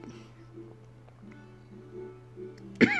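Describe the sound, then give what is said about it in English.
A person coughs once near the end, a short, sharp burst over a low, steady hum. “oh, sorry, coughing, it's not the Rona.”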